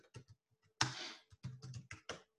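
Typing on a computer keyboard: many quick, irregular keystroke clicks in short bursts, with one louder clack partway through.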